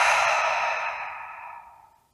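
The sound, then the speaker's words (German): A single long, deep breath out through the mouth, a soft airy rush that starts strong and gradually fades away over about two seconds, with nothing else heard. “Und dafür nehmen wir jetzt drei ganz tiefe Atemzüge durch die Nase ein und durch den Mund aus.”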